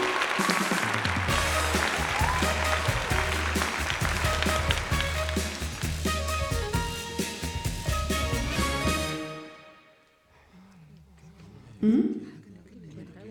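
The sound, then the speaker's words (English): An audience applauds to welcome an animal guest at a show, with loud, dense clapping for about nine seconds that fades away, followed by a brief vocal sound. “好的，接下来要欢迎第四位动物来宾的进场，我们掌声鼓励鼓励。”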